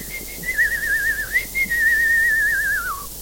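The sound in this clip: A person whistles a clear, high, sustained tune with warbling trills, briefly pausing midway before continuing, then gliding downward to end, heard alone with no talk.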